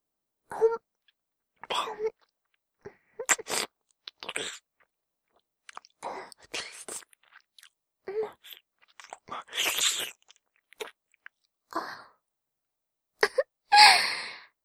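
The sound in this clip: Wet licking and mouth sounds in an intimate roleplay setting: many short smacking, slurping bursts separated by brief pauses, fairly soft, with no talk.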